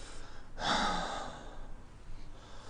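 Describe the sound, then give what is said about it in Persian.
A single breath is drawn in during a medical exam with a stethoscope. It is a faint, airy inhale that swells briefly and fades into near silence. “نفس نگهدار. نفس بکش.”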